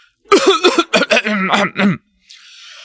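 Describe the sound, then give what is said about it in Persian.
An old grandfather coughing several times before he speaks: a rapid run of short, voiced, throaty coughs and throat-clearing bursts, followed by a brief pause and a faint hiss. “چند تا سرفه کرد و با صدای رسایی گفت:”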